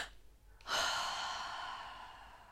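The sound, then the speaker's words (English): Physiological sigh breathing: a faint double inhale gives way to a long, loud, airy exhale that gradually trails off, with no talk. “So for instance, you know about double inhale, right? Like a physiological sigh, right? So you go,”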